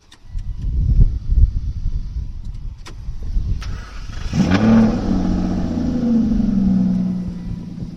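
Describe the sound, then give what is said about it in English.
An Aston Martin Rapide engine fires up partway through with a sudden loud roar, then settles into a steady, deep rumbling idle; faint clatter and handling noises come before the start. “And that is what happens when you fire up the Aston Martin. Did you get that? No? Okay. Because I never tire of this, let's do it again.”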